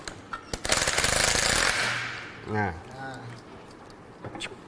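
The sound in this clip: A power tool removing the rear clutch assembly nut gives a sharp, rapid rattling burst lasting about a second, followed by a fading whir. A man then speaks over quieter background noise, with a few faint clicks near the end.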